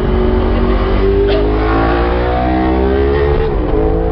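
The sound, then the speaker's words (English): A loud motorcycle engine roars close alongside, a dense, steady growl with strong droning harmonics that dips briefly in pitch near the end. “very loud something beside us. Motorcycle.”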